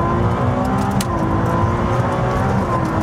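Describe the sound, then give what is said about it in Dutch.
Ferrari 296 Speciale sports car engine roaring at speed, a loud, steady, sustained drone with constant engine tones and no voices. “Wouter test de Ferrari 296 Speciale.”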